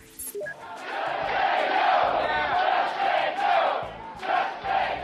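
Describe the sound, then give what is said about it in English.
Healthcare protesters chant outside a town hall in Tampa, Florida. A crowd of voices repeats rhythmic slogans that rise and fall in several loud swells, after a brief sharp noise at the start. “Now, that's the sound of a healthcare protester chanting outside a town hall in Tampa, Florida on August 6th of this year.”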